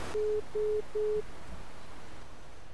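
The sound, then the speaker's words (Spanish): A telephone busy tone sounds after a dropped call: three short, steady mid-pitched beeps in an even rhythm, followed by faint line hiss. “Se nos ha cortado la llamada, una conexión un poco difícil.”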